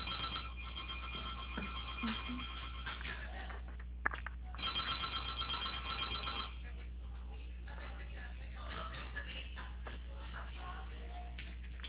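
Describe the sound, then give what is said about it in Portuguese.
A telephone ringing tone plays on the line while a call is transferred, faint and thin over steady line hiss, with a brief click partway through. “E tem como você tá me transferindo lá?”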